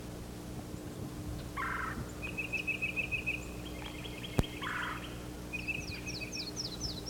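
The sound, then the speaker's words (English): A yellow-throated warbler sings: a quiet run of rapid high repeated notes, then a short series of clear slurred notes stepping downward near the end, all over a steady low hum. “There's a yellow-throated warbler singing.”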